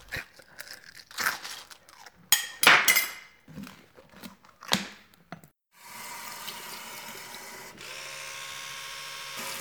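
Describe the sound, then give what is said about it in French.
Dishes and cutlery clink and clatter at breakfast in irregular bursts of varying loudness, then give way to a steady, rushing hiss like running water. “L'élève prend désormais son petit déjeuner.”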